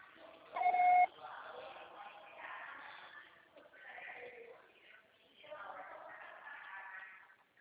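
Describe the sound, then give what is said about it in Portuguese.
A single steady electronic beep, about half a second long, from a TIM mobile carrier's voicemail before a message is recorded. It sounds early over a narrow telephone line, and a voice then speaks. “Grave seu recado. O acessório será tarifado após o sinal.”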